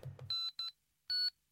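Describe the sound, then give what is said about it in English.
Electronic tones of a phone speed-dialing a contact: three short, steady, high-pitched beeps, the third slightly longer and after a pause, preceded by a brief low murmur. “I got him on speed dial.”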